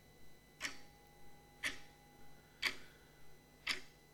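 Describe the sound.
Clock ticking in a faint, regular tick-tock: four sharper ticks about a second apart, each followed by a softer tock in between, with no voices.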